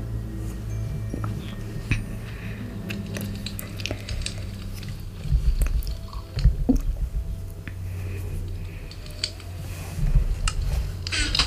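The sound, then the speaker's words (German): Someone eating and chewing food makes soft, wet, irregular munching and squishing sounds, quiet overall with a few louder bursts of chewing and no talk. “Aber erst esse ich was.”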